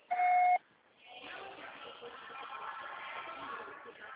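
A voicemail beep signals the start of recording: one steady, clear electronic tone lasting about half a second, then low, muffled background noise on the phone line.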